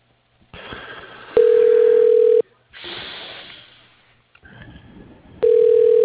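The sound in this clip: A telephone ringback tone sounds as a call is transferred to an operator: two long, steady electronic rings separated by a stretch of soft line hiss and faint noise.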